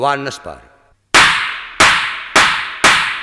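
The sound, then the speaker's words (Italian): A man fires a pistol: a brief shouted voice, a short pause, then four sharp, loud gunshots at a fairly even pace, each cracking hard and decaying quickly. “Giovanni spara.”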